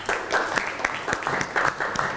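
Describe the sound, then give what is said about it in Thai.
Students in a classroom clap for a classmate, a short burst of uneven applause from a small group with slightly pulsing bursts of hands. “เอาปรบมือให้เพื่อนหน่อย”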